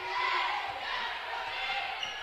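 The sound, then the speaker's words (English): A basketball is dribbled during a women's game between Mountain Home and Marion, giving a steady run of low, thudding bounces under a soft murmur of crowd noise. “Now she'll dribble up a little closer to the top.”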